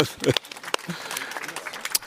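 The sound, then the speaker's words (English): Audience round of applause after a talk, scattered and uneven claps of varying loudness that never build into a dense wash, with people talking throughout. “Round of applause.”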